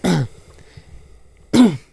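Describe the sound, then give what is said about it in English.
A person coughs twice, with a sharp, harsh burst at the start and another about a second and a half later. A faint low murmur fills the quiet gap between them. “I'm not coughing because of something I'm about to say. I'm just coughing.”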